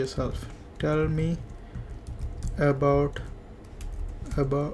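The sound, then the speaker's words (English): Typing on a computer keyboard, heard as faint, quick clicks beneath a voice that sounds in short, separate bursts. “and inside the form I'm going to type,”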